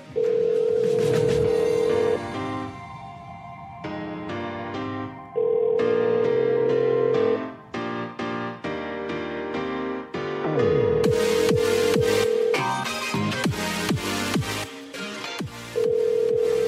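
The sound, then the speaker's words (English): A telephone rings in four long electronic tone bursts, the last cut off, layered over other busy tonal sound, with no talk. “God damn it, phone, get ringing. Come on now. People are waiting.”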